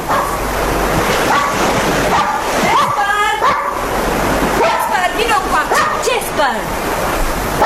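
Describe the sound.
A dog barking and yipping by the sea near a breakwater as the tide comes in, with a few sharp barks and whimpers over a constant rush of surf and waves, and people's voices calling nearby.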